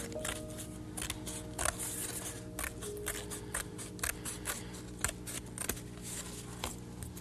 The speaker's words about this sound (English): cutting this rim off like this. And that's the first thing you do. Cut the rim of the plate.